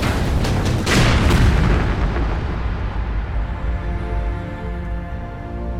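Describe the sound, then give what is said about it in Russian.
Artillery shelling near a village where tanks were refuelling. One heavy, loud boom erupts early and rolls out into a long, deep rumble that slowly fades. “«Артиллерия! Нас обстреливают! Прячься!»”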